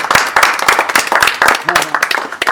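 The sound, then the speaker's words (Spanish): Applause from a small gathering: brisk, uneven handclapping that stays loud and steady throughout. “realmente, un aplauso. Buen aplauso.”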